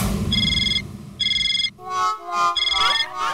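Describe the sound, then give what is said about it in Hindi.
A phone ringtone rings in three bright, repeated electronic tone bursts, loud against a busy low background, with other tonal sounds filling the gaps near the end. “किसका phone है पिलू का phone”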